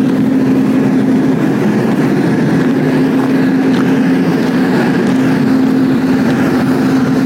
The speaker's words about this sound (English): Yeah, big generator.